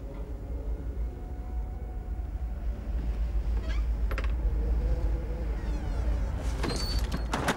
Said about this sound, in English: carefully reaches for the door handle and, after a final nod to the men, pulls the door slowly open.